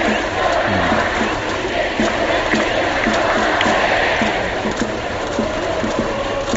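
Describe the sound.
A baseball stadium crowd cheers loudly during an at-bat: a continuous, dense roar of many voices with regular rhythmic pulses of chanting throughout.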